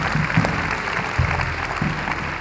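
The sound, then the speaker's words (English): A church audience claps its hands during a sermon, a dense, sustained patter of applause with a few heavier low thumps mixed in. “Come on, we ought to clap our hands to the goodness and the favor and the blessing of the Lord in our lives today.”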